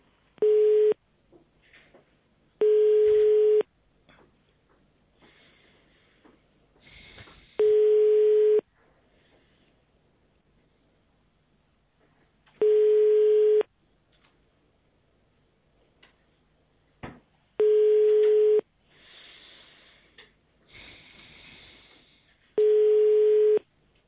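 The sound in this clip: Telephone busy signal after a dropped call: six steady mid-pitched tones, each about a second long, repeating at long gaps with only faint background noise between them.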